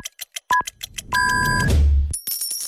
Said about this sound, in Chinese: 准确对时，现在是北京时间12点整。